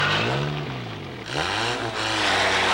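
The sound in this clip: A car engine revs and pulls away, its mid-pitched drone climbing in surges, dipping briefly, then rising again as it accelerates, loud and steady without talk.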